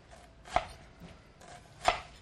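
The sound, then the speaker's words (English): A knife dicing an onion on a cutting board: two crisp, sharp chopping knocks spaced apart, with quiet slicing between them and no voices. “Run my knife down through it, not cutting through the tip. Sort of angling in at the sides. And that's how we get a nice small dice.”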